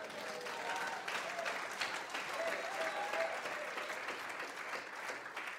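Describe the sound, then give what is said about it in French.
An audience applauding during a church sermon, sustained clapping from many people that holds at an even, moderate level throughout. “Quelqu'un peut-il acclamer Dieu?”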